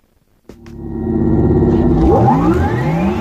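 An electric car pulls away after a sudden onset, its motor whine climbing steadily in pitch over a low road rumble as it accelerates, growing louder and then holding strong to the end.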